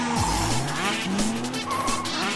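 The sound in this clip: Tire squeal from cars in a stunt show at a Disney studios theme park, over roaring engines. The screeching is sustained and high, with a wavering, sliding pitch. It is loud throughout, with no talk.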